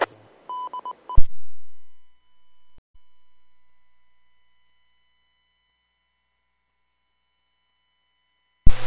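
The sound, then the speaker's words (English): Telephone dialing tones ring out in a quick series of beeps while an internet connection is being set up. A steady tone follows and fades into near silence, then a short burst of tone returns at the end. “I'm just trying to get this internet connection established.”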